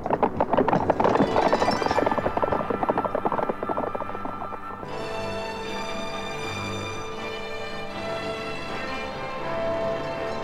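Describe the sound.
Horses gallop in a 1975 German Western radio play, racing a mare against a stallion through the desert; rapid, dense hoofbeats drum for about five seconds, then give way to a sustained musical passage.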